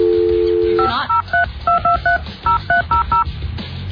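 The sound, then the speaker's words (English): Telephone keypad dialing on an office phone: a steady dial tone, then a quick, uneven run of many short two-tone beeps, with no talk. “Let's see here. I don't have to dial 9.”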